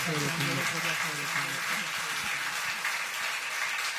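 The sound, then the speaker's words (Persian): Steady audience applause at an Eid al-Ghadir religious gathering, a continuous, even patter of many hands throughout, with a voice heard over it at the start. “بزنید اون دست قشنگ رو خدا خیرتون.”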